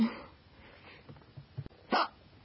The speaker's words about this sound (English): I'm having, like, really loud ones again. So, I thought you might like them. So, I'm just gonna talk about nothing. And I'll let you enjoy my hiccups